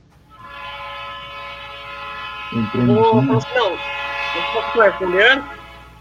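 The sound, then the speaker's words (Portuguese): A train horn sounds nearby as one long, steady, chord-like blast that holds for several seconds, with people talking over it partway through. “Espera aí que o trem buzinou aqui, repete.”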